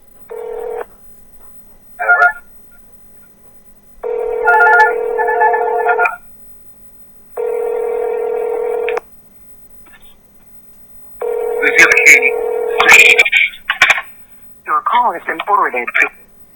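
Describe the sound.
Recorded telephone ringing: a couple of short tones, then three long buzzing ring bursts separated by pauses, followed by a garbled, distorted voice speaking over a faint steady hum.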